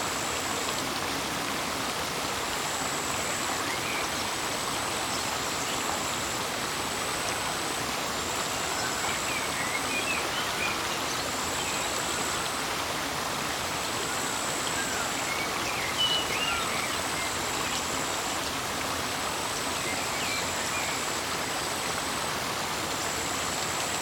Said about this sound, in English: draw your attention to the sound of the water and just let it grow on you.